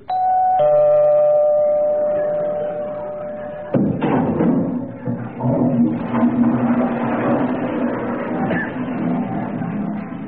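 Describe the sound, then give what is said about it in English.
Doorbell chiming a clear two-note ding-dong as someone calls at the door, a loud sustained ring that fades, followed by several seconds of thumping and rustling noise. “That was the Avon lady calling at a very inconvenient moment.”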